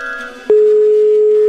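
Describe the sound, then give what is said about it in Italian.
Ringing tone of an outgoing telephone call: a single steady mid-pitched tone lasting about one second, preceded by a brief stretch of faint background sound. “Ora verrà chiamata la nuova vittima di Wender, Arnaldo. Sentiamo se risponde.”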